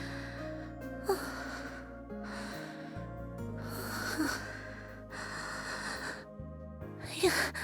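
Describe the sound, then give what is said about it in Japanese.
Quiet, slow deep breathing alone, several breathy inhales and exhales following one another, with soft snorting air at the nose. “まずは深呼吸をして”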